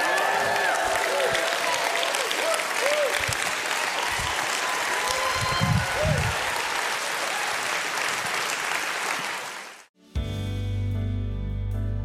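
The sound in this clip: Church audience cheering and applauding as worship reaches a peak, with a loud, sustained roar of clapping and shouting voices that stops abruptly near the end, followed by a brief stretch of music.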